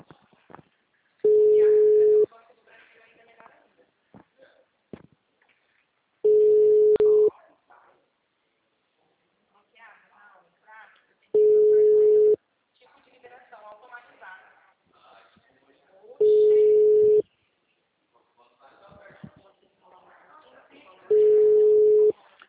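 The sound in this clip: A telephone tone during a phone call: five steady, mid-low beeps about a second long, evenly spaced about five seconds apart, with people talking quietly in the gaps.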